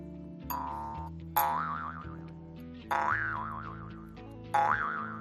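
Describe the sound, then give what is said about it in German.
A jaw harp twangs in four plucked notes, each a bright ringing tone whose pitch wobbles up and down as it fades, over a low buzzing drone. “Und jetzt noch eine Trommel, die sieht zwar nicht aus wie eine Trommel, aber heißt, aufgepasst, Maultrommel.”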